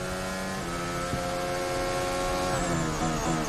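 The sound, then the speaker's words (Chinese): Formula One race car engine restarting after stalling on track at the Singapore Grand Prix, a steady, loud, buzzing whine whose tone shifts up and down as the revs change. “斯德罗尔的赛车呢，刚才呢也是突然间停在了赛道当中，好在呢现在呢是可以重新启动。”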